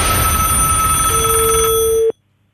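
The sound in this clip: A telephone bell rings for a morning call, one steady, loud, continuous ring lasting about two seconds before it cuts off abruptly into silence.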